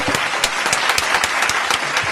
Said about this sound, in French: Ça mérite des applaudissements! Des applaudissements, on en veut!